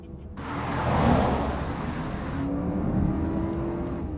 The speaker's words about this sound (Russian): Машина заезжает на подземную парковку.